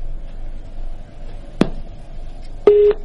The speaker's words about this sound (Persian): بله متاسفانه خط ما قطع شد